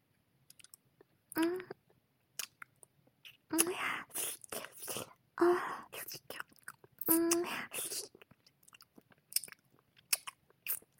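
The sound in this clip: Chewing and crunching on fire dragon pills: a sequence of wet bites, clicks and mouth sounds, with a few soft voiced moans between the bites.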